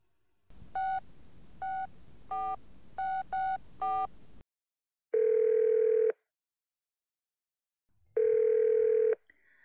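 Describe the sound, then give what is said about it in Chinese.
A telephone call is placed: six short keypad dialing beeps, then two long steady tones separated by silence. The sound is clean and fairly quiet, with no voices. “在打电话？和谁呀？”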